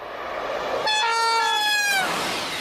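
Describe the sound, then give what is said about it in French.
A TGV high-speed train sounds one sustained horn note over a rising rush of rail noise, and the note slides downward in pitch as it ends. “le record de vitesse d'un train est réalisé par un TGV à 574,8 km heure”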